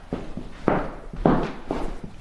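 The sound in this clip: Footsteps walk through Otto Ubbelohde's house, a historic home with an almost unchanged interior: several soft, evenly spaced thuds, each step a low muffled knock.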